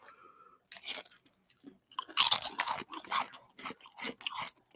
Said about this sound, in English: Tastes like plain Pringles, right?